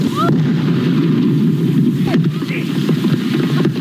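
Explosives blasting a beached whale carcass make a loud, sustained roaring rumble that stays dense and steady through the whole stretch, with no quiet gaps.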